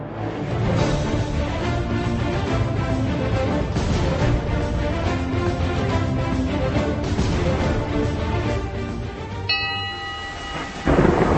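Thunderstorm sound effect with deep rolling thunder over steady heavy rain, loud and continuous throughout, ending abruptly.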